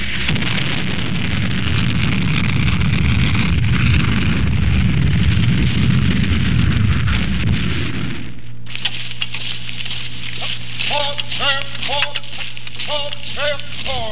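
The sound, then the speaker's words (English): An Honest John rocket launches at Grafenwöhr. A loud, sustained roaring blast and rumble lasts about eight seconds, then cuts off abruptly to a much quieter, steady hum. “The biggest sound heard on the foothills of Graffenwehr is that of the Honest John rocket.”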